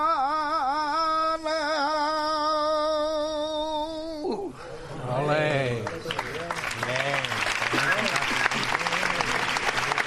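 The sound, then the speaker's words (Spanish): A live saeta, the sustained, wavering flamenco religious song, ends and gives way to an ovation of dense, continuous clapping, with a voice speaking over the applause. “Gran ovación a esta increíble saeta que acabamos de poder disfrutar en directo.”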